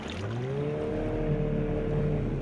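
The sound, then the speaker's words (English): A speedboat engine drones steadily as the boat travels along a river toward a lagoon, a continuous low harmonic hum that stays even in loudness throughout, with no voices. “I am now moving along a river which takes me to the lagoon. Taking a trip by these types of speedboats is really exciting.”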